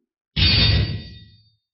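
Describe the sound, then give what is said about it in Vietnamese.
Clash of metal weapons as a giant blood-red sword meets a flaming scythe in a fantasy battle: one sudden loud impact with a bright, ringing metallic tail that fades away over about a second. “Một tiếng kim loại va chạm phát nổ”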